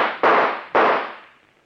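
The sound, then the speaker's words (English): Two gunshots fired in quick succession, each a sharp, loud bang with a long fading tail, about half a second apart, with no voices. “Stand back, I say. All right, then I'll shoot.”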